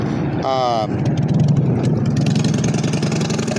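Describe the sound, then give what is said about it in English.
Road traffic drones steadily as a low, continuous rumble of idling and medium engines, with a short burst of speech near the start. “sorry, the traffic stopped. 1 second.”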